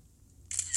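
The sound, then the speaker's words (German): A phone camera's shutter sound fires as a photo is taken: a short, bright synthetic click in two quick bursts, alone against quiet background hiss. “Ich mache jetzt ein Foto davon,”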